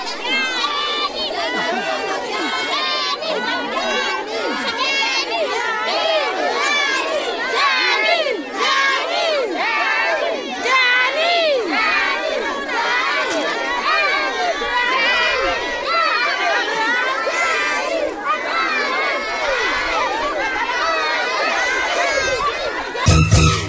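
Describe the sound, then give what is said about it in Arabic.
Protesters, among them elderly people, women and children, chanting 'no to hunger' at a sit-in against the halt of food aid: a dense crowd of many loud overlapping voices shouting and chanting continuously throughout. “وردد المشاركون في الوقفة هتافات لا للجوع لا للجوع”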